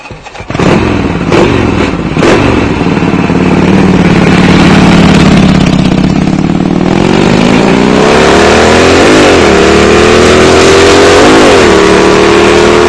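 A farm machine's engine revs loudly as it drives, a steady heavy drone that climbs in pitch partway through and then surges a couple of times before settling, with no talk.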